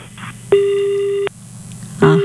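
Telephone busy tone after a call drops: a long, steady electronic beep, then a second beep starting near the end, both over a low background hum.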